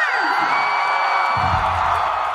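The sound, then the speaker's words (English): A concert crowd gives a subdued, half-hearted cheer after a pop singer announces her Las Vegas residency will run two more years: sustained whoops and shouts held at a steady, moderate level. “The crowd is kind of like, yeah! Yeah, yeah. It's like the reaction to it is like, oh, well, okay.”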